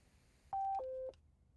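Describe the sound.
Two touch-tone keypad beeps from a phone dialing to call back after a restart, each a steady electronic tone of about a quarter second, played back to back, the second one lower in pitch.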